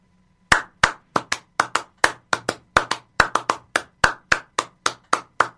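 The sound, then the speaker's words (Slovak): Rhythmic hand clapping in the style of a Slovak čardáš, many sharp, crisp claps in a lively, uneven pattern, heard alone over a faint low hum. “napríklad e, tlieskanie. Vieš, tlieskanie, ktoré je v futbe, ako treba zober si slovenské čapaše”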